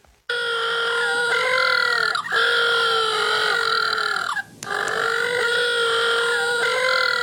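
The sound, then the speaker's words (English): Little blue penguins calling: loud, harmonic, nasal braying calls that carry on in long stretches separated by two brief breaks, with no talk over them. “Now, if you're wondering what that is the sound of little blue penguins.”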